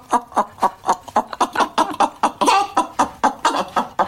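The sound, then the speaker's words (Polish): A performer's voice imitates a hen clucking: many short, rhythmic clucks in a quick, even series. Each is a sharp, throaty burst, loud and alone, with no other voices. “Tradycyjnie zaczynam od kurki.”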